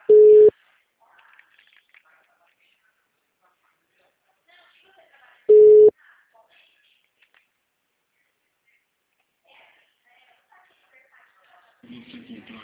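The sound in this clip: A telephone rings while waiting for an answer: two steady ringback tones about five seconds apart, with near silence and faint noises between, then a different buzzing tone at the end.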